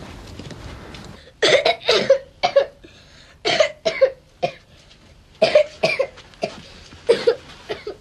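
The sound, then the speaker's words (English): A sick man coughs in repeated harsh fits, with several clusters of sharp bursts separated by short quiet breaths. No speech. “Daddy's coughing.”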